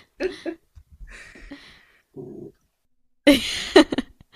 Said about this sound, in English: Sorry about my dog.